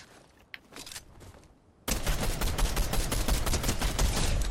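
Gunfire rips through a Fortnite match. A quiet opening with a few faint clicks gives way abruptly to a loud, dense stream of rapid shots that runs to the end.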